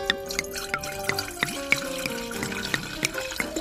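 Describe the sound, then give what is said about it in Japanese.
Sake being poured into cups for a memorial toast: a soft, quiet trickle of liquid broken by a steady series of small drips and light clinks. “献杯をしたいと思いますので、皆さんちょっとお継ぎしたいと思います。”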